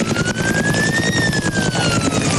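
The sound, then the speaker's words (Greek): Firefighting helicopters at work dropping water over a burning pine forest: a loud, steady rotor roar with rapid chopping pulses, and a high tone that rises and then falls over it. “Είναι η χαρακτηριστική ήχη από τις επιχειρήσεις σε πλήρη εξέλιξη, εναέρια μέσα, ελικόπτερα τα οποία επιχειρούν και πραγματοποιούν ρήψεις νερού αυτή την ώρα”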